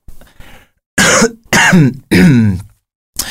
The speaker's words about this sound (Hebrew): לא עורכים את השיעולים, אז תשתדל לקצר, שיעול אחד. שיעול אחד.